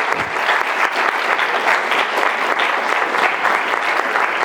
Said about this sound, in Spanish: Les pedimos un aplauso para los expositores.